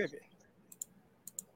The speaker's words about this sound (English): Let me check my settings real quick. Do you have headphones on? No, I don't do headphones. Hold on. Y'all going to hear a click real quick.